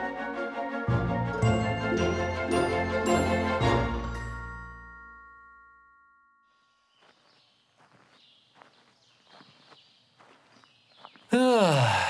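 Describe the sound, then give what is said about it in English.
Footsteps on a walk through a forest, an audio drama effect: faint, even steps come in after a chiming musical passage fades out, with a sudden louder sound at the very end. “Lovely walk in the forest. No one to bother me.”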